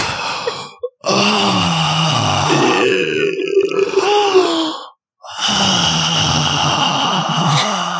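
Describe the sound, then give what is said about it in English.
A person makes voiced choking sounds: strained, gurgling groans and grunts that waver in pitch, broken by two brief silences. “5 more minutes of choking sounds in this podcast.”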